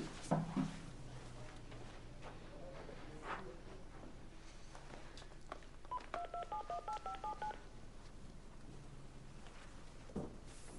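Touch-tone beeps of a telephone being dialed: a quick, even run of short electronic tones in the latter half, with a few quiet clicks and handling thumps before and after.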